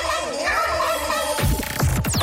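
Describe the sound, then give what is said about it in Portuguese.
Turkey gobbling from a wild, out-of-control turkey: a wavering, warbling call gives way to a loud, rapid burst of rattling gobbles that carries through to the end. “Esse é o teu autotune? Ou é apenas um peru descontrolado? É um peru descontrolado.”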